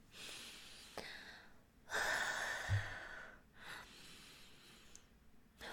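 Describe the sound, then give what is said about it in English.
A person takes a slow, deep breath, heard as soft, airy breathing with one longer, fuller inhale, faint and with no talk. “I'm taking a nice deep breath.”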